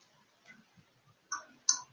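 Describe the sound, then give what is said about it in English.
A tarot card is pulled from a deck with two short, crisp clicks, faint and isolated against near silence. “I will go ahead and pull a card for you”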